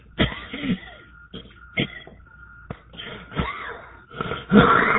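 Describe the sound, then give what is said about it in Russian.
A man coughs in a series of harsh, wheezy bursts, several loud fits separated by short pauses, with raspy throat sounds between them. “Прошу прощения. Закашлялся.”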